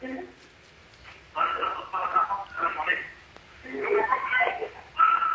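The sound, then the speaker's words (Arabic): Television sound playing in the background of a caller's phone line, heard as muffled, narrowband voices in several uneven bursts separated by short pauses. “لو خفضت حضرتك صوت التلفزيون شوية”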